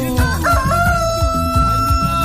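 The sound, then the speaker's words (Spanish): A rooster crowing: one loud, drawn-out crow held at a steady pitch, heard alone. “¡Canta, gallo!”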